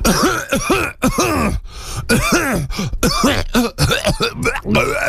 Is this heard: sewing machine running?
no